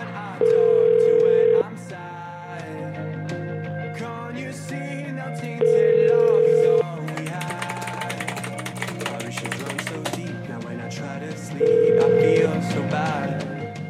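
An outgoing telephone call rings unanswered. Three steady ringback tones come at even intervals over continuous background music.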